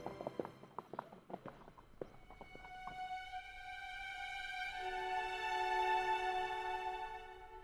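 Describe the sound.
Horse hooves clip-clop in a quick, irregular run of many sharp beats through the first few seconds. A steady, sustained tone then swells and holds to the end.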